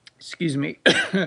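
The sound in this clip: A person clears their throat and coughs in a rough voiced rasp, then one sharper, louder cough burst, all within about a second.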